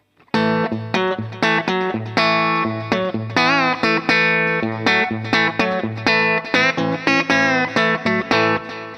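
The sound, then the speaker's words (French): Electric guitar riff played on a Kelt guitar through the treble pickup with the mid booster off: many crisp picked notes in a steady rhythmic pattern, a few of them bent or wavering, loud and without talk. “je reste sur le micro aigu, je vous mets le booster à zéro, donc là c'est le son du Kelt pur et dur.”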